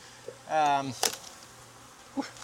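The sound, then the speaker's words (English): Honeybees buzzing at a strong hive: one loud, rich buzz lasting about half a second that drops in pitch as it fades, followed by a brief click and a short, fainter buzz near the end. “Yeah, they're a little bit buzzy already. This hive is getting strong.”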